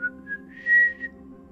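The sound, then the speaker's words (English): Someone whistles while walking down an outer hall: a short, clear melodic whistle with a louder held note in the middle, over a low steady hum. “The questioning silence of the moment was broken by the sound of someone whistling”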